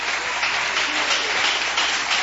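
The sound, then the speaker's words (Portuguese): A church audience claps during a lively service. The applause is a steady, dense patter that holds at an even level for about two seconds, with no voices. “só recebe, glorifica e bate palmas para Jesus, aleluias.”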